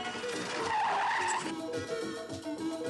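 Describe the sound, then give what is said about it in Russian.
A convertible car brakes to a stop with a loud, harsh tire skid. The broad screeching noise is sustained for about three seconds, rough and noisy throughout, with no voices. “Кабриолет останавливается рядом с фургоном.”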